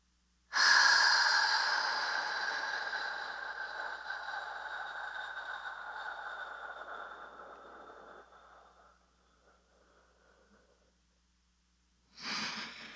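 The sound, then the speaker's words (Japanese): Slow paced breathing in an exercise of inhaling five seconds, holding one and exhaling fifteen: a long, airy breath starts strongly and gradually fades over about ten seconds, then after a short pause another breath begins. “5秒吸って、1秒止めて、15秒吐く。”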